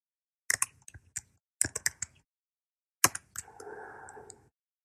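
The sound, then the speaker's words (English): Loud typing on a computer keyboard comes in three clusters of sharp, rapid key clicks separated by short pauses, the last burst trailing into a brief scratchy rustle. “Sorry about the loud typing. I can't avoid that yet.”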